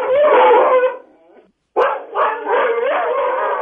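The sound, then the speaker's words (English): Several dogs bark and howl together in a loud, sustained chorus with wavering pitched howls, breaking off briefly midway before another burst of overlapping yips and howls resumes. “is there any way we could isolate the dogs to hear just one?”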